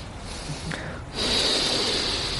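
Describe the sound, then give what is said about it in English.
A voice imitates a deep ceremonial breath, as if about to shake a lulav: a soft breathy rush that swells into a louder, steady airy exhale held to the end. “So this person would take deep breaths as if they're about to shake a lulav. And they would go”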